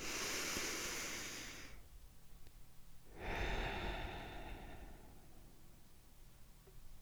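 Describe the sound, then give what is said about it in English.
A slow, deep breath in and then out, heard as two long, soft rushes of airy noise separated by a brief pause, each swelling and then fading away. “Let's take our traditional deep breath in and deep breath out.”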